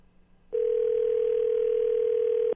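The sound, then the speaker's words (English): A telephone ring tone on an outgoing call: one steady, unbroken mid-pitched tone lasting about two seconds, heard alone and clearly. “One ringy dingy, two ringy dingy.”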